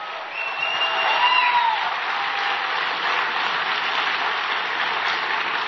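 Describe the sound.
An audience applauds the Vice President of the United States at the Nixon Library with dense, steady clapping that holds an even level throughout with no break.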